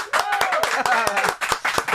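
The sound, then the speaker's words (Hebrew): A group of people claps in a studio: many sharp, irregular claps, with voices talking over them. “כפיים.”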